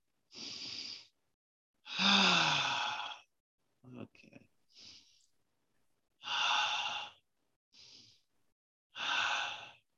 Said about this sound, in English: so I took 3 deep breaths.